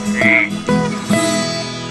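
A frog croaks three times, each croak loud and resonant with a ringing tonal quality. The croaks come at a steady rhythm about half a second apart, with no talking.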